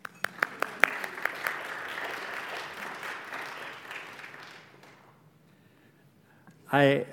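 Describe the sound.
A church audience applauds to welcome a speaker. A few sharp separate claps open into fuller clapping that gradually thins and fades to near silence, and then a voice begins speaking.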